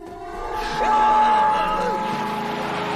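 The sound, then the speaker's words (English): Van engine revving hard as the vehicle accelerates and swings into a turn, a loud, steady motor drone with wavering pitch that swells in the middle and holds to the end. “A zombie lies on the van's front window, then Shaggy accelerates and turns, making him fly off.”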